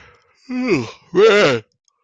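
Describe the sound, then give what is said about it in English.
Yawning from a man: two drawn-out voiced yawns about half a second each, separated by a short pause, loud and clear with no talk. “this yawning is getting crazy”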